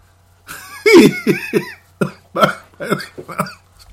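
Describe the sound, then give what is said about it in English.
A person with a dry mouth coughs in a rapid run of short, harsh bursts. The coughs come in many uneven pulses over a few seconds, loud and alone with no speech. “Pardon me for the coughing there. I'm drying up my mouth and I apologize.”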